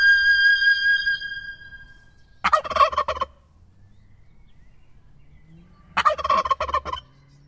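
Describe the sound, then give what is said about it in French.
A turkey gobbles twice, each a loud, rapid, rattling burst of about a second separated by a few seconds of near quiet; faint tonal sounds are heard before the first gobble. “Quand on voit ce dindon, et quand on le compare au dindon auquel on est habitué, le dindon domestique, classique”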